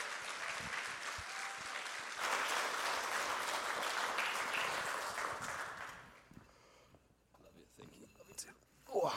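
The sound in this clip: A church audience applauds to welcome a speaker. Steady, dense clapping lasts about six seconds, then dies away to quiet rustling, with a brief louder sound at the end.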